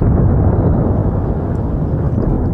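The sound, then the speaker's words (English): Blasts in the city of Beirut come through as a loud, continuous low roar and rumble, dense and unbroken, with no distinct separate bangs. “Blasts were heard in Lebanon's capital of Beirut.”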